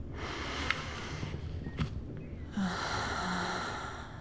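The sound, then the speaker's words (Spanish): Deep, forceful breathing during a doctor's examination: two long, soft rushes of air separated by a short quieter gap, fairly faint overall. “Inhala y exhala con fuerza.”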